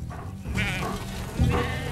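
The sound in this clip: A herd of sheep bleats in wavering, nasal cries that overlap, with two stronger calls rising above a constant murmur from the flock.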